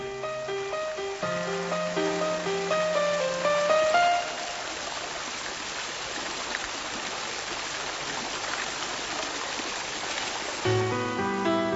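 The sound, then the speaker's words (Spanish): Water from the crossed fountain jets of a pool with an irrigation channel running through the Patio de la Acequia: continuous rushing and splashing, with melodic music at the start and end. “el patio de la acequia, así llamado por la canalización de la acequia que lo atraviesa y que se caracteriza por los populares surtidores cruzados del estanque”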